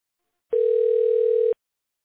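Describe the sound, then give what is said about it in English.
A telephone tone sounds while a call is transferred to an extension: one steady, mid-pitched electronic beep lasting about a second, alone. “If you wish, please hold on while I try that extension.”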